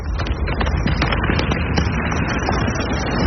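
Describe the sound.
Forest fire burns and crackles, a dense, loud, continuous roar thick with many sharp pops and snaps, with no pause throughout.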